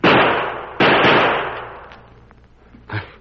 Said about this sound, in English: Let me rest my gun on this here branch. This time I ain't going to miss.